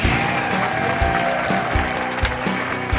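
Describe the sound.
Canned studio audience applause, a thick, continuous wash of clapping at a steady, fairly loud level throughout, with no voices standing out above it.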